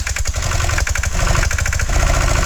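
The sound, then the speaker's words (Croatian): A 1976 18-horsepower Tomo Vinković tractor engine runs with a rough, loud, steady chugging clatter and uneven pulses throughout. “Ma ne Tomo Vinkovića iz 1976. godine sa 18 konjskih snaga. Daj mi upali blender.”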